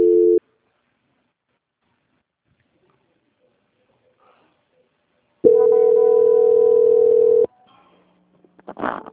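Telephone tones sound during a call transfer: a short steady beep at the start, then near silence, followed by a longer, steady, fairly loud tone of about two seconds; faint scattered noises come afterward.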